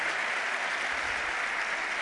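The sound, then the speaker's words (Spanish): Audience applause for a guest: a steady, even wash of many hands clapping, moderately loud and unbroken from start to finish. “Os pido un aplauso para él, Jesús Callejo, nuestro primer invitado.”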